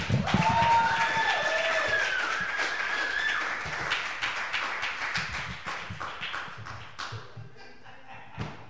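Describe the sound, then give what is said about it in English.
Audience applause welcoming a guest introduced on stage: dense, steady clapping from a crowd with some cheering, gradually thinning and growing quieter toward the end. “So, ladies and gentlemen, if you guys could give her the round of applause that I think she deserves when I say her name, that would be so awesome. Give her the welcome she deserves.”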